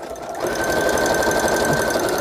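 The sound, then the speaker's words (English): A sewing machine stitching sheets of paper together, a fast, even mechanical whir and rattle that kicks in after a brief quieter moment and then holds steady. “A long time to sew papers together, but it's fun.”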